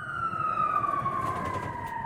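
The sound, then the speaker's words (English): An ambulance siren sounds as one sustained wailing tone that glides slowly lower, steady and moderately loud over a low engine rumble. “I can remember getting into the ambulance. Right, we're going to get you onto the ambulance now, mate.”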